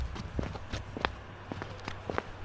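Footsteps going downstairs, a run of quick, fairly light thuds in a slightly uneven rhythm.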